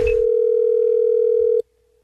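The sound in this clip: A telephone dial tone hums before a prank phone call, a loud, steady single-pitched tone that holds unbroken for about a second and a half and then cuts off abruptly.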